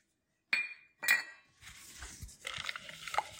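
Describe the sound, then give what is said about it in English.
Chocolate chips dumped into warmed milk and gently stirred in: two sharp clinks, then a scattered, rustling rattle and soft scraping of mixing, fairly faint throughout. “Now it's all very warm. I'm just going to dump the chocolate chips in and gently mix those in.”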